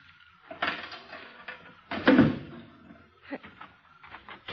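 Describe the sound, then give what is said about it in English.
A car trunk lock is opened, giving a few soft mechanical clicks and rattles, a louder clattering clunk as the lid releases, then several lighter knocks trailing off, with no talking. “Here, take this flashlight and hold it on the trunk lock while I open it. You're going to open the trunk? Naturally.”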